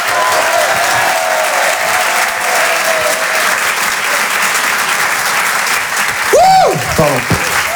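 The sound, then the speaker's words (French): Audience applause and cheering welcomes a comedian to the stage: a dense, steady wash of clapping that thins toward the end, where a loud whoop rises above it. “Je vous demande de l'encourager. Faites un maximum de bruit, s'il vous plaît, pour Clément Kersual.”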